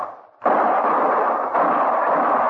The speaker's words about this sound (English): Start shooting